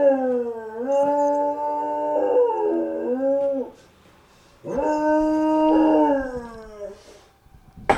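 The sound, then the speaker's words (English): A dog howls twice. Each howl is long, loud and wavering, its pitch bending up and down, and the two are separated by a short silent pause. “Finally, we get a howl out of the beast.”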